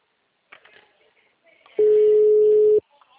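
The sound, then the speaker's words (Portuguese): Ringback tone of an outgoing telephone call: a single steady mid-pitched tone about one second long, preceded by a few faint scattered sounds and followed by brief quiet noises. “Está chamando.”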